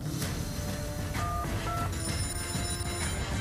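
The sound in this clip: A telephone rings with short electronic tones over steady background noise. The ring comes in a few brief pulses.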